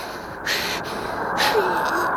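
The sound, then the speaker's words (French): Wind blows as a steady airy hiss, broken by two stronger whooshing gusts that surge and fall away. “J'ai trouvé. C'est le vent.”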